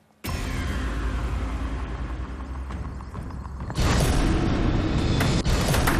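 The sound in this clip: Mechanical whirring and rattling from a Tipping Point coin pusher machine as a counter is loaded into Drop Zone 4. The noise is steady, then jumps louder and busier toward the end.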